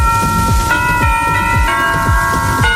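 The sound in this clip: A bell rings from the archive of the first Dutch television broadcast: three struck tones about a second apart, each leaving a sustained ringing hum that overlaps the next. Low swooping rumbles recur underneath.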